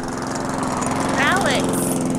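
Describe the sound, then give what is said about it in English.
Lawnmower engine running, a steady loud droning hum with a constant buzzing pitch throughout. “why don't you use the lawnmower? Not a bad idea.”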